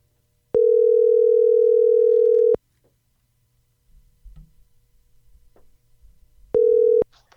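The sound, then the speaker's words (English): A steady telephone dial tone holds for about two seconds and cuts off, leaving near silence and faint low rustling, then the same flat tone returns briefly. “let's go ahead and dial.”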